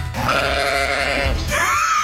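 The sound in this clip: Goat bleating during a sound-guessing game: a long, loud, wavering bleat followed by a second, higher and harsher cry.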